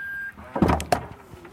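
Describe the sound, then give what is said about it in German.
A large SUV's electrically powered tailgate opens: a short electronic beep, then a couple of latch clunks, followed by a low motor whine that climbs slowly in pitch. “Wie du hörst, öffnet sich die Heckklappe natürlich elektrisch.”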